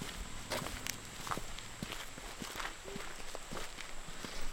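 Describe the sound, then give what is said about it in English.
Footsteps along a popular hiking trail by a park headquarters, the path leading toward Cataract Falls, many steady, crunching steps in an even walking rhythm with faint rustling between them. “We'll walk into one of our little popular trails here because it's right by the headquarters.”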